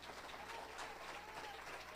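Church audience clapping during an evening worship service. Many hands make a faint, dense and steady patter for about two seconds.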